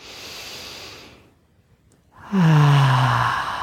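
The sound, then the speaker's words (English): Deep breaths during a guided meditation: a long airy breath, a short quiet pause, then a louder voiced exhale whose low tone slides downward like a sigh. “Two more nice deep breaths. Inhaling, exhaling, one more.”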